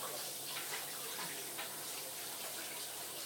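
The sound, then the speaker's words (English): Running tap water splashes steadily while hands are washed with antibacterial soap, a soft, even hiss of flowing water with faint irregular splashes throughout. “Just washing my hands with antibacterial.”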